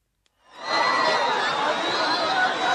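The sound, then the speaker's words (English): A crowd in Asia cheers as dawn turns to darkness during a total solar eclipse. After a brief quiet moment, whoops and shouts swell quickly into a loud, sustained roar. “Millions of people in Asia turned their eyes skyward Wednesday and cheered as dawn suddenly turned to darkness across the continent”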